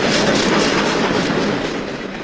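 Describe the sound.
A departing passenger train rumbles loudly and steadily with a dense, hissing clatter of wheels on rails, continuous throughout with no voices.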